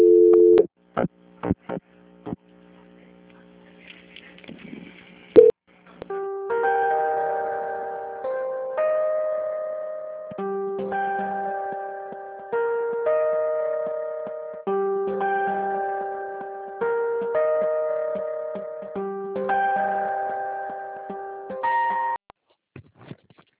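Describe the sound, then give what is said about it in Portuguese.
Telephone hold tone during a call transfer to a Banco Santander auditing line: a few short beeps, then a repeating electronic pattern of steady, clear pitched notes. “que eu vou transferir para a auditoria do Banco Santander, tá bom? Tá bom. Vai ficar mudo um pouquinho só.”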